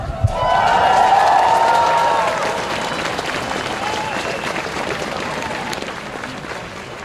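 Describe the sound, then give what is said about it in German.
Loud applause and cheering from a crowd at a school strike in Erfurt against a military service law. The clapping is strongest for the first two seconds, then continues steadily with a mix of hands and voices. “So klang es am 5. Dezember 2025 beim Schulstreik hier in Erfurt.”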